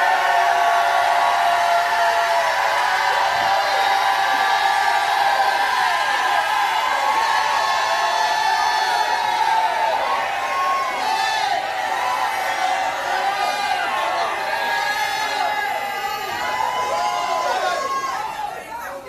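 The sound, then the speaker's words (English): A church audience shouts and cheers during a worship service: a dense, loud mass of overlapping voices with whoops and cries, sustained throughout and easing slightly at the very end. “Now go ahead and shout about it if you believe it.”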